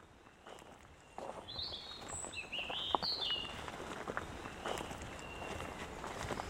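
Footsteps walking up through the wooded parts of a cemetery, a steady series of soft crunching steps on the path, with a few bird chirps above them.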